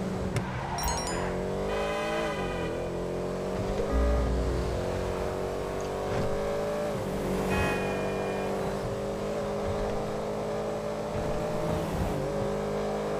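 A video game race car engine roars and revs steadily throughout, its pitch sliding up and down with gear changes, while tires squeal and skid across the road.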